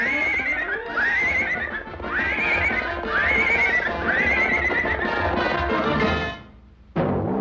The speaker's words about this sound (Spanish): Un jinete de experiencia siempre lleva su caballo paso a paso hacia el establo.